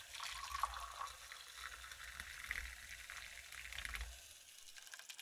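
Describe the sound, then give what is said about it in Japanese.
Hot water for a honey drink pours in a soft, steady stream, a faint continuous hiss with a low rumble that trails off near the end. “にお湯を注いで、”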